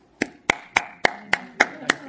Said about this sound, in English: Let's applaud the Lord and applaud these.